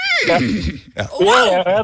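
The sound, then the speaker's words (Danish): A voice imitates a horse's neigh in two loud bursts, each a strained, wavering whinny with a shaky, rising and falling pitch. “Og så står der en hest over på den anden side og kigger på mig, og så siger den...”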